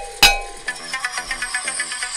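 A single sharp metallic clang of a wrestling ring bell at ringside, struck once with a bright, lingering ring, followed by a run of soft, regular beats.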